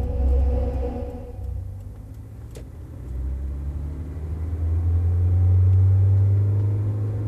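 Low, steady engine rumble of a car driving, a continuous deep hum that swells somewhat louder toward the end, with no voices.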